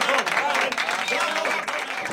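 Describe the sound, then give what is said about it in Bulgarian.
Studio audience applause for someone celebrating an anniversary, a dense, steady stretch of many hands clapping that fills the whole clip without fading. “Да, това са аплодисментите за юбиляра.”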